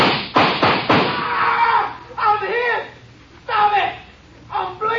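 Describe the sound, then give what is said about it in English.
Gunshots fired at a rock ledge in a dramatized western shootout: three quick, loud, sharp bangs in a row at the start, followed by voices talking. “Draw your gun and we'll empty it on him. Hit right below the dent. Aye. All right. Let's hope for a billiard shot. Start firing.”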